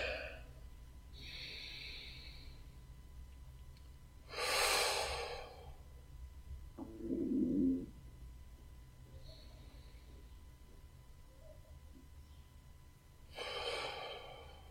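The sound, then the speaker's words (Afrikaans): Slow, deep breaths are drawn during a guided breathing exercise. Several airy inhales and exhales come with long quiet pauses between them, one lower and more nasal, over a faint steady hum. “Haal ons 'n paar keer lekker diep asem saam met my.”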